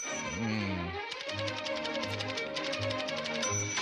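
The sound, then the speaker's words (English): Rapid, evenly spaced typewriter key clicks run throughout, layered over low, repeating musical tones. “And I'm sure when Dr. Connert sat down to type this email, he did it at this particular pace. You can tell, it's in the cadence right there in the email itself.”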